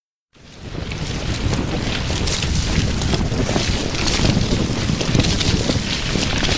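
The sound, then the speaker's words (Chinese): A storm sound effect of strong wind and heavy rain bursts in after a brief silence and then roars on as a dense, unbroken hiss at a steady, loud level. “果然，六点半的时候，暴风骤雨摧残着蚁穴，百兽四处逃散，成群的蚂蚁一团团的被雨水冲走了”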